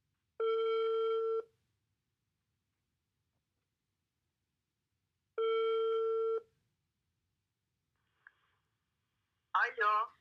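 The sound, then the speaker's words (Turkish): Ringback tone of an outgoing telephone call to a friend: two long, steady electronic tones about four seconds apart, then a tiny click and a brief voice at the very end. “Şimdi bir arkadaşımı arıyorum.”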